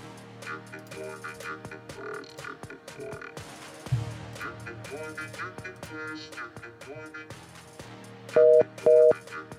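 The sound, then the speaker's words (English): Telephone busy signal heard while calling a phone number: two loud, even beeps close together at the end, after a stretch of murky tonal sound. “I know, it's just a busy number anyway.”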